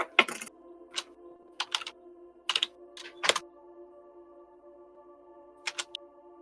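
Typing on a computer keyboard during a tabletop role-playing game session: short clusters of sharp keystrokes in irregular bursts, a long pause, then a few more taps, over a faint steady hum.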